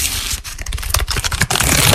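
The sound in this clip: Collectible trading cards rustle and flick in a dense, loud run of crackly clicks and papery scraping that continues throughout with no voices.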